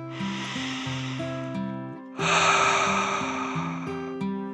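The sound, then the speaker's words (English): A voice imitates a dragon's deep breath in a soothing children's story: a long, soft inhale, then a louder, breathy exhale over gentle sustained music tones. “The dragon smiled and took a deep dragon breath in and out.”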